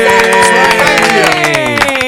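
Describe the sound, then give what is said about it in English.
An audience claps for a guest musician, a rapid dense patter of hands. The clapping stays loud and steady alongside a sustained sliding tone that drifts downward in pitch. “Now we're going to clap for you too.”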